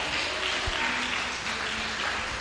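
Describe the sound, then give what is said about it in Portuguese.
Congregation clapping hands during a lively church worship service, a steady, fairly soft patter of many hands that continues evenly throughout with no clear voices. “Exalte ao Senhor com as suas palmas bem alegres.”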